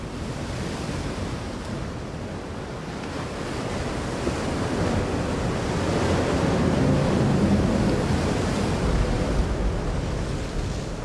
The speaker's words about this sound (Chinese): 淮河上空忽然狂风大作，暴雨如注，河流掀起的巨浪似乎要把小船掀翻。